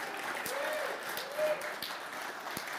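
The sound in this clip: An audience applauds to welcome a performer, with faint, scattered clapping running steadily beneath a person talking.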